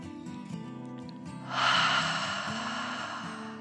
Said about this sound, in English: Feeling quite content, he took another deep dragon breath in and out.